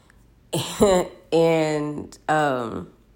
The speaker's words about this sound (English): I'm kind of recovering, so I do apologize in advance if I do start coughing.